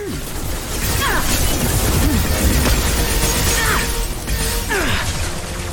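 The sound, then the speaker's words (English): Point-blank gunfire in a shooter video game, with an enemy's shield and faceplate taking hits: a loud, dense, continuous burst of shots with crashing impacts and a few sweeping whistle-like tones. “So we are like 1 foot away from each other, and I just put like a million bullets directly into his faceplate.”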